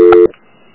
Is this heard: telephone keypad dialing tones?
yes